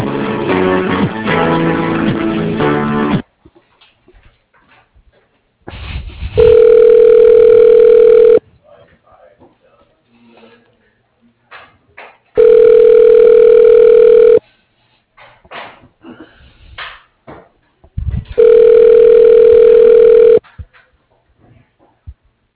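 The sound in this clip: Ringback tone of a phone call being transferred to a club's facilities line: three long, loud, steady buzzing rings, each about two seconds with longer silent gaps, after a brief stretch of music, with faint clicks between rings.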